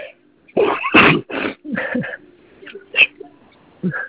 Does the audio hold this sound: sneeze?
yes